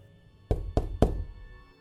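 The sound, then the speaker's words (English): Three sharp knocks on a door, evenly and quickly spaced, standing alone over a faint background hum. “A knock on the door interrupted them before Tony could work out how much OSU knowledge she'd soaked up over the years.”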